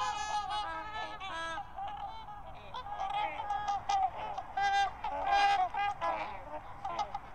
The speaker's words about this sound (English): the refrain was rising not from messengers or musicians, but from a flock of over 100 of some of North America's most majestic and impressive birds, trumpeter swans.